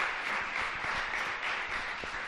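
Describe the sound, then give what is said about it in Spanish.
Steady applause from an audience at a live event at the Fundación San Valero: a dense, even wash of many hands clapping, fairly faint throughout, with no voices. “Un aplauso para Pepe. Gracias.”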